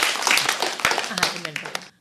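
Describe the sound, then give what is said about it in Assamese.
Hand clapping for a small child, a short burst of a few claps from a group with voices speaking over it, fading out at the end. “বাৰু এতিয়া আমি অকণমানি জিজ্ঞা চাইৰ কাৰণে ডাঙৰকৈ হাত চাপৰি বজাই”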